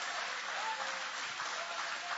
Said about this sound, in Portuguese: Isso, podem aplaudir. Pode exaltar.